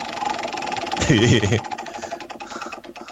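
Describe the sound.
A prize wheel in a quiz game spins with a rapid, steady ratchet of clicks. A voice cuts in briefly over the clicking partway through.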